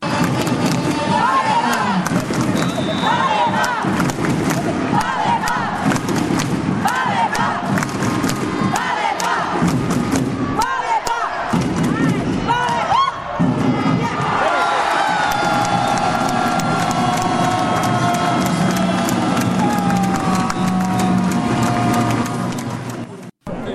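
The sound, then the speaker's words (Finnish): A crowd cheers and shouts at a volleyball bronze medal match, a loud, sustained roar of many voices that holds for most of the time before cutting off abruptly at the end. “tänään kuunnellaan eilisiä tunnelmia pronssiottelusta.”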